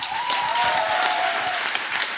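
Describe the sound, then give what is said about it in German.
Audience applause welcoming a guest onto the stage at an evening event in a Dortmund jazz venue: a loud, even wash of many hands clapping, sustained from start to finish. “Bitte einen ganz großen Applaus für Oleg Senzow.”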